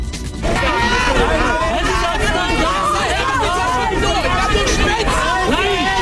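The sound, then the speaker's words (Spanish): Loud crowd din from protest clashes with police in Berlin's Charlottenburg district, during unauthorised marches by conspiracy theorists and anti-vaccine groups against pandemic restrictions. Many voices shout and clamour over one another, dense and unbroken after a brief quieter opening. “Este es el sonido de estos incidentes ocurridos durante las marchas convocadas por el movimiento Kerdenker, que congrega a conspiracionistas y antivacunas y ha derivado en enfrentamientos con la policía en el barrio de Charlottenburg”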